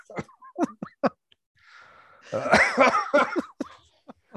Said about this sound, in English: You got me coughing now.